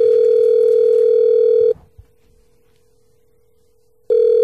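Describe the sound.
Telephone dial tone while a call is being placed, a loud steady hum that cuts off abruptly, leaving near silence with a faint lingering tone and a small click, then snaps back on near the end.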